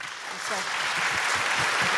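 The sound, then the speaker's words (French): Audience applause welcoming a guest onto a show, a dense, steady wash of clapping that holds for the whole stretch with voices mixed in beneath it. “Et on peut l'applaudir, s'il vous plaît.”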